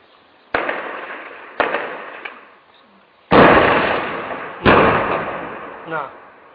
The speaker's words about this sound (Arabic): نرى في هذا الفيديو رجل الأمن يأتي حاملا الار بي جي ليقوم بعد ذلك بإطلاق القذيفة على بيوت الآمنين.